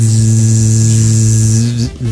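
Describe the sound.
A voice imitates an electric hair clipper with a steady, low, droning buzz that holds evenly for almost two seconds before breaking off near the end.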